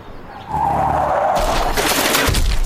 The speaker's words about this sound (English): Thankfully, they've just driven up. And they will say hi real quick as they drive up.